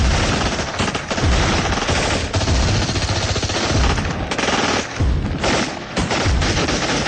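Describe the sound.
Sustained machine-gun fire in a radio drama, soldiers opening fire on advancing Baumes: dense, loud, continuous rattling bursts that barely let up, heard alone without voices.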